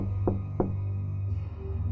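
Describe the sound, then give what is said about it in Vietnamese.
Two quick, sharp knocks on a toilet door sound in close succession over a steady low hum, followed by quiet. “tôi nghe ở ngoài cửa toilet có tiếng gõ cửa.”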